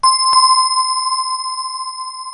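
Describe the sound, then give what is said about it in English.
A bell closes a sung devotional chant. It is struck sharply twice in quick succession, then rings on as a clear, loud, high tone that wavers gently and barely fades. “The wazifa ends with the sound of a bell,”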